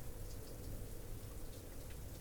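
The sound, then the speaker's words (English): Rain falls steadily as a soft, continuous hiss. It stays even in level, with no distinct drops or thunder. “Listen to the rain,”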